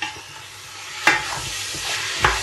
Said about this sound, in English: let's check on the browning of the lamb,